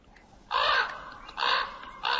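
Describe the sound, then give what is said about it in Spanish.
A crow cawing in protest near a puma at an elk carcass in Yellowstone. It gives three harsh, rasping caws at fairly even intervals, each clear and alone over a quiet background. “El cuervo debe tener cuidado con sus protestas.”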